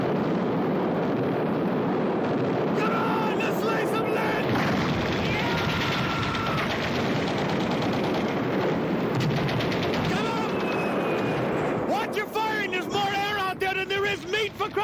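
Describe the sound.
Dense, relentless gunfire and rapid machine-gun bursts crackle without pause through a jungle firefight, loud and continuous, with shouting voices cutting through near the end.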